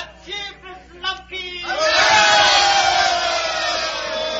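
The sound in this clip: A crowd cheering at an election gathering: a few brief voices, then a loud, sustained roar of many people that holds steady to the end.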